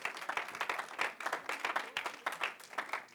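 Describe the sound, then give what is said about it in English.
A church audience claps its hands in a round of praise, a steady, dense patter of many hands at moderate loudness with no voices standing out. “Can you give him a good hand clap of praise as you're being seated tonight?”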